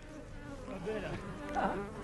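Bees buzz near wax and honey with a continuous, fairly quiet drone that swells and fades slightly, alone without speech.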